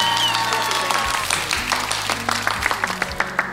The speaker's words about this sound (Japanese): よく噛まないで言えた川上舞さんに大きな拍手